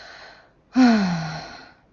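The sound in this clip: A man groans once: a drawn-out voiced moan that slides downward in pitch and fades over under a second, following a brief quiet pause.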